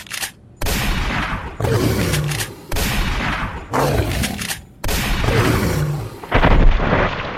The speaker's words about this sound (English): Time I use this shotgun I've been refusing to use the entire time because I have so little ammo for it.